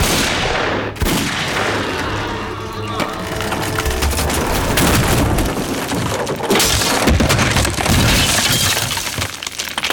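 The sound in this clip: Wooden cabin being smashed apart in a dense, continuous clatter of cracking, splintering and crashing debris, with sharp impacts scattered through a loud, sustained roar of breakage.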